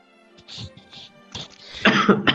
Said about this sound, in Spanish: Perdón por la tos. Y perdón por la tos.